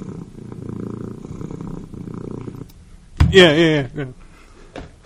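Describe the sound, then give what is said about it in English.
A pet cat purrs while having her feet massaged: a low, steady rumbling drone for several seconds, then a short, louder vocal sound. “Especially like when I massage her feet, she purrs.”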